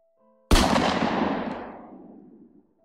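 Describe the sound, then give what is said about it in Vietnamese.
A single gunshot fired from real ammunition, not rubber bullets, below a container yard at night: one sharp, loud crack followed by a long, rumbling echo that fades over about two seconds. “Một tiếng súng vang vọng trong không trung.”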